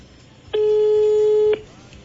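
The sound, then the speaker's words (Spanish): A telephone ringback tone sounds while a call goes unanswered: one steady, mid-pitched beep of about a second, loud and clean, with quiet before and after. “¿Por qué no contestan? Ah, tengo que poner, marcar, ¿verdad?”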